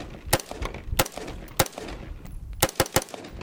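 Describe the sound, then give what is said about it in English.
An AR-15 ghost gun rifle being fired: several sharp, loud cracking shots at irregular intervals, ending with a quick burst of three in rapid succession. “now a ghost gun AR-15 being fired, so you can tell the difference if you're ever on the streets watching it happen. That was a regular AR-15. This is a ghost gun AR-15.”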